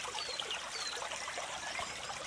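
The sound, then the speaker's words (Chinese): Flowing stream water: a soft, continuous trickle and babble, faint and even throughout. “听着小溪的流水声，伴随着鸟儿 在枝头的鸣叫，”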